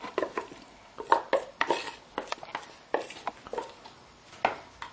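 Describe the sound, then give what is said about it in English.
Pasta salad with olive oil being mixed in a bowl: many irregular clinks, taps and scrapes of utensils against the bowl, fairly faint, with no talk. “Now, just add everything, mix this up together.”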